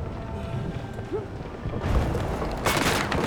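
Gunfire in a military video game battle involving a Jeep and rockets: a low rumbling backdrop, then a couple of heavy, loud bursts of shooting near the end.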